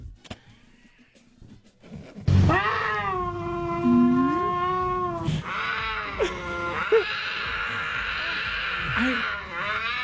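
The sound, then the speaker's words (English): A cougar's mating call: loud, sustained wailing yowls with rich harmonics, like a caterwauling cat, rising after a low rumble and continuing with a few breaks and wavering pitches to the end. “That cougar sounds like it's in pain, but it's not. Passion. That cougar is feeling pleasure, not pain.”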